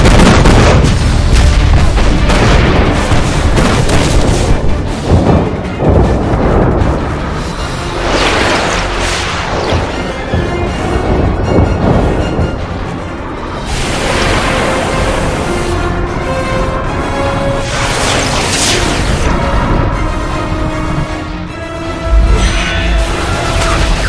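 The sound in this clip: Guns or artillery firing on command produce loud, dense bursts of heavy booms and blasts, one after another throughout.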